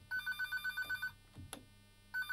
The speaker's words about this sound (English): Somebody's phone's ringing. That's not mine.